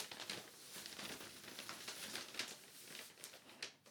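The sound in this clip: Paper bag crinkling as it is handled, the bag holding a costume; a steady run of dry, papery rustles and crackles with many small irregular bursts, fairly faint and with no voices.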